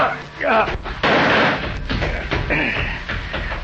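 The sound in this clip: Sharp, heavy gunshot blasts punctuate a radio drama scene, and people talk around them.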